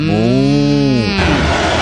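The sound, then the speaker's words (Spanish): A loud, low moo comes from cows in a cattle truck. It is a steady, buzzy tone lasting about a second that bends downward at the end and breaks into rough, noisy rumbling. “Es un camión de vacas, ¿eh?”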